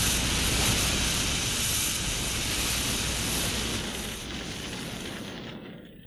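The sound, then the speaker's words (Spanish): A fire burns a heap of papers, chairs and a bed inside a house, a dense, steady roar of flame that holds level and then slowly fades toward the end, with no voices. “prendí fuego al montón de papeles. También coloqué sobre las llamas las sillas, la cama, y el gas haría el resto.”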